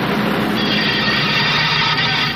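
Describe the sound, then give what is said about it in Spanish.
Steady, loud roar of a locomotive as a sound effect, a dense continuous rushing rumble that holds evenly from start to finish with no voices. “Más poderoso que una locomotora.”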